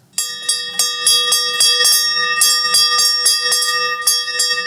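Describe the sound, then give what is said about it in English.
A bell rings in a steady rhythm, standing in for a big church bell calling people to Sunday morning worship. Many bright, clanging strikes follow one another quickly, each leaving a shimmering ring. “it had a big bell on it. And somebody would get up there, and on Sunday morning, the day of worship, you would hear this all across the land.”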